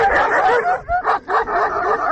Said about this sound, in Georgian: ლაგოდეხში ეს ხმა განუწყვეტლივ არა, თუმცა პერიოდულად დღის და ღამის განმავლობაში ისმის. აქ ასობით უპატრონო ძაღლს შეხვდებით